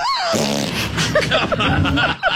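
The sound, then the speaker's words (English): A fart is forced out during a chiropractic adjustment as a short, low, rasping burst, with voices around it. “she forced a fart out on that one, didn't she?”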